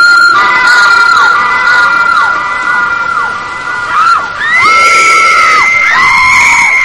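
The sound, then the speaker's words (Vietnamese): Three girls scream amid wind and rain, their long piercing wails overlapping and bending in pitch over a constant rushing noise. “Những tiếng kêu thét xé lòng của ba cô gái vang lên trong tiếng gió mưa.”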